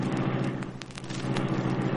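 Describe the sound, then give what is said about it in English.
A steady, loud low engine roar from the Black Beauty, the Green Hornet's sleek, superpowered car, starting up inside a hidden garage in an abandoned building. The hum holds even throughout, with faint crackle on top. “Reed pressed a button. The great car roared into life.”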